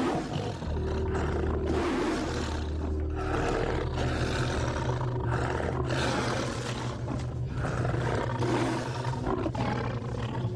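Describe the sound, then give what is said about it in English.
A tiger roars in forceful, sustained bursts, deep and rumbling with a rough, powerful texture. The sound stays loud and dense throughout, with brief dips between the roars. “they felt the physical effects of the tiger's roar. It's like it's coming right through you. It feels like the sound is actually penetrating you. It's so forceful.”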